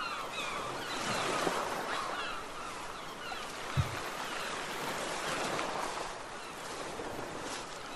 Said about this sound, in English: It is officially morning as the sun is over the horizon. The morning clouds and the fog on the ocean are starting to dissipate.